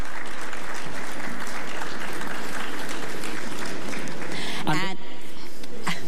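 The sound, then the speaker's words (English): Audience applause for pageant delegates at an evening event at the National Cultural Center: dense, steady clapping that carries on without a break for several seconds, with a voice coming in near the end. “Please put your hands together for our delegates that are with us this evening.”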